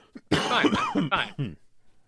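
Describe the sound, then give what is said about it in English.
Coughing from a person still recovering from an illness: a few harsh, throaty bursts in a quick run, fairly loud, with no talk over them. “I'm coughing over here still.”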